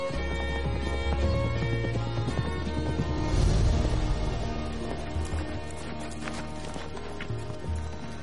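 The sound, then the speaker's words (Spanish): Horses ride through a green forest, their hoofbeats a steady clip-clop under loud, dense music that runs the whole time. “Cabalgan por el verde bosque.”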